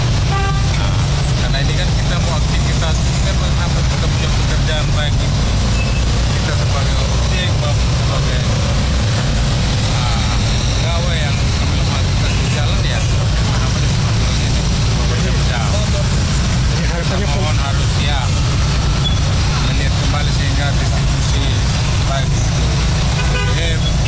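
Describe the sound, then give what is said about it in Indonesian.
Idling engines of a long queue of motorcycles and pickup trucks waiting for fuel during a fuel shortage, a steady, loud traffic rumble with indistinct voices mixed in throughout. “Berdasarkan pantauan RRI, antrian panjang kendaraan didominasi oleh kendaraan roda 2 serta roda 4 jenis pickup serta”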